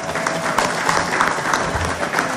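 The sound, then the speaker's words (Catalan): Audience applause at a book presentation: a dense, steady patter of many hands clapping at once, holding at an even, fairly loud level for the whole stretch without pause. “Un aplaudiment per a l'Albert i la Laura,”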